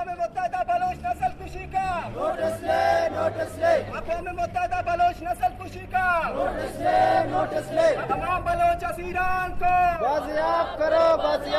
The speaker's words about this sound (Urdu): اس موقع پر انہوں نے اپنے مطالبات کے حق میں یہ نعرے لگائے۔